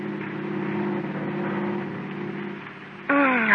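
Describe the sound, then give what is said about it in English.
A car driving home at night in a radio drama hums with a low, steady engine drone that holds at an even level before a louder tonal sound cuts in near the end. “And then one night, you and Shelley are driving home from an after-theater party.”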